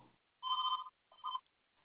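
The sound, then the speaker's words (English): A cell phone rings with a warbling electronic ringtone, heard as two bursts: a longer ring followed by a shorter one after a brief pause, with quiet in between and no voices. “I really should have, I'm sorry about that. I should have turned off my cell phone.”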